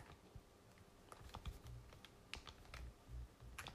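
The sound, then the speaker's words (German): Quiet computer keyboard typing during a shooting video game, with many rapid keystrokes and clicks tapping in an irregular stream. “Ich liebe es, hier so in die Tasten zu drücken”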